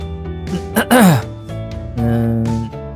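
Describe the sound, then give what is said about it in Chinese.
A person clears their throat in a few short rasping bursts, ending in a voiced sound that falls in pitch, followed by more low voicing. “谢廖东清了清嗓子”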